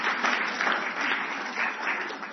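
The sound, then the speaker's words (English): An audience bursts into applause, a dense, steady wash of many hands clapping that carries on evenly for the whole stretch at a moderate level, with no voices over it. “Round of applause.”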